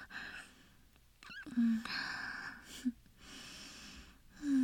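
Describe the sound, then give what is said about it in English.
Soft, little breaths nestled against someone's neck: quiet snuffling exhales and sniffs, a few short breathy puffs separated by brief pauses. “Those little breaths and nestles in my neck.”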